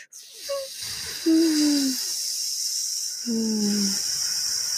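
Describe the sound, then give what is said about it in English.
A voice imitates the slow release of air from a balloon: a brief squeak, then two longer thin squealing tones that sag slightly in pitch, each wrapped in breathy hiss over a steady background hiss. “you take a deep breath and you're like a slow balloon air release.”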